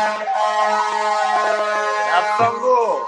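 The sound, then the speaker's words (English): Fire truck siren on a New York street: a loud, wailing, harmonic tone that holds steady and then sweeps downward in pitch toward the end. “That's a fire truck. Yeah, yes, fire truck.”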